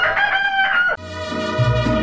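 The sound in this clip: A rooster crows: one long, strained, harmonic crow, followed at once by a second, lower, rougher call that continues to the end. Both calls are loud, with no talk.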